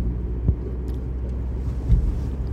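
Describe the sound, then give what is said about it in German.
Car driving on a road toward a motorway on-ramp to Kiel, a continuous low engine and tyre rumble with two soft thumps standing out along the way. “ich muss mal kurz gucken, dass ich hier die richtige Auffahrt treffe. Denn das ist ja alles nicht ganz so einfach. Ich glaube, wenn ich Richtung Kiel fahre, ja, soll ich auch, dann klappt's.”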